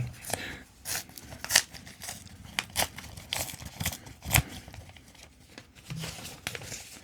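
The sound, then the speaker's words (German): An envelope is opened during a quiz game: faint, crisp paper rustling, crinkling and tearing, with many quick snaps and scrapes in an uneven run. “Ich öffne den Umschlag.”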